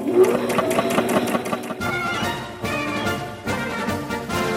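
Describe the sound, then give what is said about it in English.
A sewing machine stitching a dress gives a rapid, rhythmic mechanical clatter. The even stitching pulses in the first part give way to a denser, steady whirring that continues to the end. “Oh, she's sewing.”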